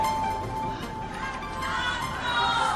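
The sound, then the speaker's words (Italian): Crowd applause fills the Ariston theatre at the Sanremo Festival as the winner is proclaimed, a dense, steady roar of many hands that holds at an even loudness throughout. “L'applauso dell'Ariston”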